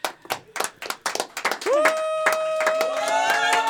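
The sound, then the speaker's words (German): People cheering and celebrating in a kitchen: a run of sharp, rhythmic claps gives way to a sustained high whooping or whistling tone that holds at steady loudness to the end. “ihr hört schon die ganze Zeit die Küche im Hintergrund jubeln und feiern”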